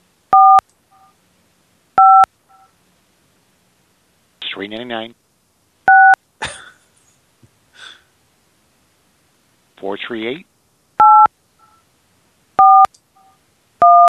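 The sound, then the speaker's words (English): Telephone keypad touch-tones being dialed: six short, sharp beeps at uneven intervals, with brief bursts of voice in between. “Just going to keep dialing.”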